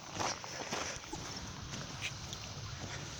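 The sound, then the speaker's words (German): Soft footsteps of a person walking along a canal on a paved cycle and foot path. A few faint, irregular steps sit within a quiet, steady outdoor hiss. “Ich laufe jetzt wieder am Kanal entlang.”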